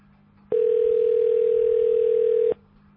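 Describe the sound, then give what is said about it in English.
A single steady telephone line tone sounds as a call to a county sheriff's office is transferred, starting and stopping abruptly and holding for about two seconds over a faint background hiss. “If this is an emergency, please hang up and dial 911. Wait while I transfer your call.”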